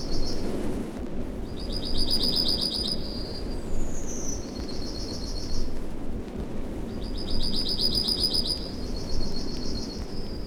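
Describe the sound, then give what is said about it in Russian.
A small bird sings in a forest outside spring with bright, ringing, high trilled phrases in two main bursts and a short sliding note between them, over steady low background noise. “Какая-то птаха. Сейчас они мало поют, не весна все-таки. Но зато как звонко.”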